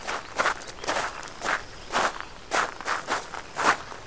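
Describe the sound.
Footsteps walk over to a thermometer mounted on a house wall: a steady series of soft, scuffing steps at an even pace, with no voices.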